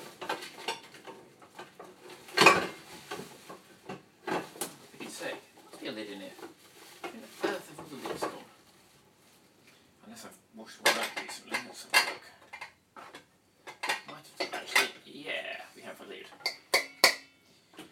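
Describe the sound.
Pots, pans and lids clatter in a kitchen as someone rummages for a lid that fits, in many irregular metallic clanks and scrapes, with a voice speaking at times between them.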